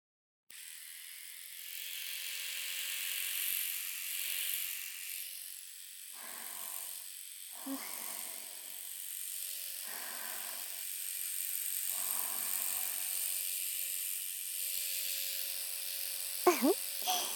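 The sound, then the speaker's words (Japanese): A razor shaves the fine, downy hair around an ear. A faint, steady hum runs throughout, broken by several short, scratchy strokes against the skin. “かわいい弟の産毛を剃るなんて嬉しい。トゥルットゥルにしてあげるからね。”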